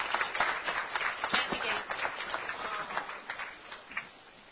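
Applause at a Rotary club meeting welcoming a guest, a Venezuelan engineering student, with sharp individual claps from a modest crowd that thin out and fade toward the end.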